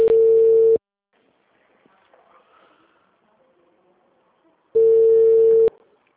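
Ringback tone of an outgoing telephone call: two loud, steady mid-pitched tone bursts, each under a second long, separated by about four seconds of near silence with only faint background sound.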